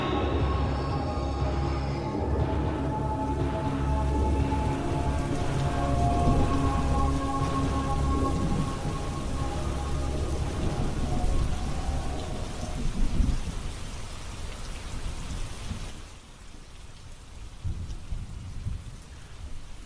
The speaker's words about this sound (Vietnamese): Trên bầu trời mưa như thác đổ.